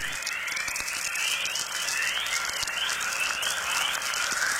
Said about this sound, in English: Particles from the sun are hitting Earth's magnetic field and generating these noises, probably several thousand miles out in space.